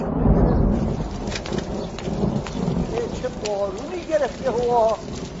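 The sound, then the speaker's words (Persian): Heavy rain pours steadily with a low rumbling undertone, and a voice talks over the downpour in the second half. “چه بارونی”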